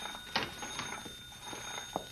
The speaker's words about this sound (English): Maybe we ought to answer it.